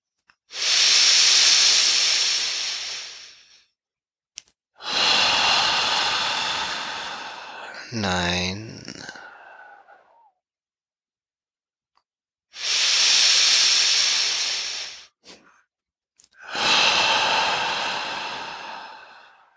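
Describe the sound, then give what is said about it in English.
Slow, deep exhales push all the air out in long hissing rushes during a guided relaxation exercise, four drawn-out airy breaths separated by pauses, with a short voiced, pitched sigh between the second and third. “Let all the tension go when you exhale, then pushing all the air out.”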